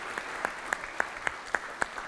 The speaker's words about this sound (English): All right, let's give them a round of applause.